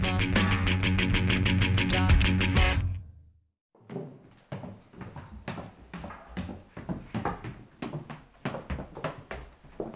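Footsteps hurry down a flight of stairs to open the front door. Many quick, uneven thuds and scuffs follow right after a short burst of music cuts off.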